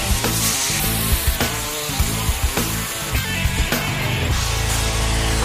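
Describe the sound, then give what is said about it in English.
A power tool cuts the ends off lengths of angle metal, a harsh, continuous grinding rasp that runs steadily throughout with small repeated surges. “in Texas, and the guys tell me that I need to cut the ends off of this angle metal because someone, somewhere, sent the wrong part.”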